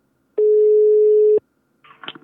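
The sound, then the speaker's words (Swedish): A telephone ringing tone sounds while someone calls a person early in the morning: one steady, low-pitched tone lasting about a second. After a short silence, a voice briefly speaks as the call is answered. “Så nu tänkte jag ringa upp honom och se om han är vaken här en tidig morgon.”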